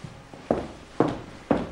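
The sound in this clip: Footsteps as Mozart walks out: three firm, evenly spaced steps about half a second apart, each a sharp thud with a short decay. A faint tap comes just before them.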